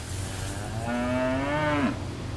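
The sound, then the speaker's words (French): A dairy cow moos during milking, one drawn-out, fairly low call that swells over about a second and then drops off sharply at the end, heard alone without voices. “il y a la traite, euh, donc le, lait, vous récupérez le lait, mais euh, euh, ces six vaches qui sont en face de nous”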